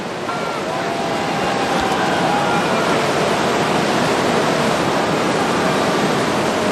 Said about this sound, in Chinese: 我们看到今天的一线潮是一道优美的弧线